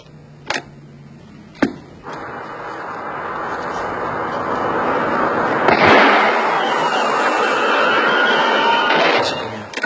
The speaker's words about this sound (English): This is a gunshot. And the second is a blowout.